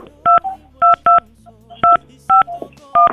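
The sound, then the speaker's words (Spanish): Touch-tone keypad beeps as a telephone number is dialed for a call to León, Guanajuato: six short, evenly pitched dual-tone beeps in an uneven rhythm, clear and loud over a faint low hum. “Vamos a marcarle. Esperemos que sí nos conteste.”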